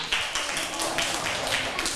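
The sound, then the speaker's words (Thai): A classroom of children claps for a classmate, a dense, even patter of many hands that stays fairly quiet and steady throughout, with faint voices mixed in. “ปรบมือให้กับเพื่อนด้วยค่ะ”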